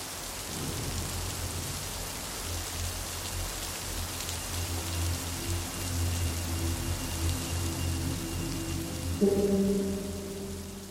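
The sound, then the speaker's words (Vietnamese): Steady rain falls on a late-September afternoon in Rạch Giá, a dense, even hiss that holds at a constant level throughout with no voices. “Rạch Giá, một chiều mưa cuối tháng 9”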